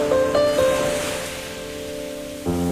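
Ocean waves washing onto a beach as part of a calm music piece: a soft, steady surf rush runs under gentle sustained tones, which thin out mid-clip and come back near the end.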